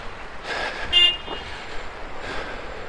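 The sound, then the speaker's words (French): A car horn gives one short toot on a rainy street, fairly faint against a steady wash of traffic and road noise. “C'est pas moi qu'on a klaxonné, hein.”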